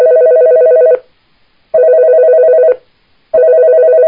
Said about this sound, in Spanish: Bueno, una llamada en línea, lo oímos.